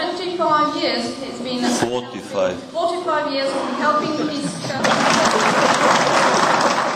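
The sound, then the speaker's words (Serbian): Applause for Serbian president Tomislav Nikolić after he corrected an interpreter. A voice speaks first, then dense, loud clapping breaks in and continues to the end. “Da, aplauz za Tomislava Nikolića koji je korigovao prevodioca.”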